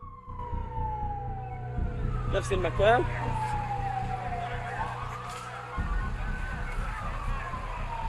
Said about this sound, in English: then taken to another ambulance. The vehicle drives away with its lights flashing.